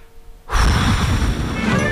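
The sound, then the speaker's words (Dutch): A long, loud, breathy blow of air to clear dust from an old record, after a brief near-silent moment. The rushing noise holds steady until the end. “En ik ga even diep ademhalen en dan ga ik het stof eraf blazen.”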